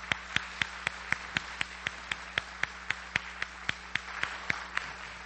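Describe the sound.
Applause welcomes a guest speaker at a morning gathering, heard as a faint but steady run of many sharp, evenly spaced claps at a brisk, regular rhythm.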